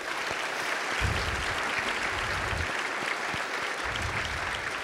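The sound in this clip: Applause for about forty prospective student athletes, their families and friends in a chapel: a dense, steady clapping that holds at an even loudness for the whole stretch.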